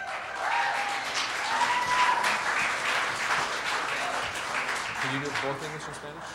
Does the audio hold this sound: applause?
yes